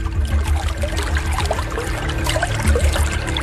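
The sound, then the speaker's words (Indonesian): Water flowing out of a hole made by a palm-rib stick, a steady, continuous splashing trickle over a low, even hum. “Hei, lihat airnya keluar dari lubang lidi itu.”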